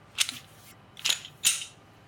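Handling of a P80 pistol build fitted with a Patmos upper from JSD Supply: three crisp, bright mechanical clicks, spaced unevenly with short quiet gaps between them.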